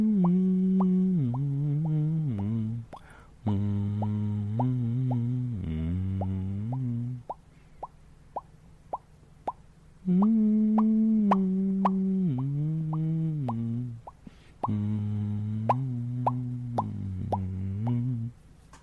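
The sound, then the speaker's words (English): Lips tapped lightly together, imitating fish bubbles, make many soft popping plops over a humming voice that steps up and down in pitch. The plops continue through the pauses in the hum. “we're going to just lightly tap our lips together to make that kind of fish bubble sound”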